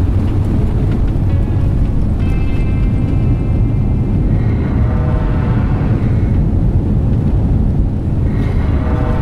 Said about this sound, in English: You're an amazing pilot, Ace. Those beams aren't even touching us. Flying's easy.